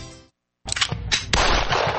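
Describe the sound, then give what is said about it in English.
Gunfire rings out at a shooting range in Louisville. After a brief silence come a few sharp, loud bursts, which run into dense, sustained crackling noise. “Next Level Ranges, Louisville's premier country club experience. Whether you're dropping in to shoot or ready to become a member, this is shooting taken to the next level.”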